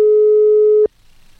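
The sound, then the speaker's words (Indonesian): A telephone tone sounds while a call is being connected, a single loud, steady pure beep lasting under a second. It cuts off abruptly into near silence. “Oke, masih coba terhubung barengan sama Pak Alif.”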